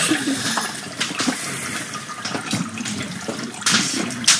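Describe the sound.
Running water as hands are washed in freezing cold, a steady rushing splash with irregular louder gushes, moderately loud and without talk.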